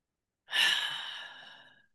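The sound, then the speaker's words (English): A long, soft, airy exhale as people breathe together, rising suddenly after a short silence and tapering away over about a second and a half. “let's just take a moment to breathe together”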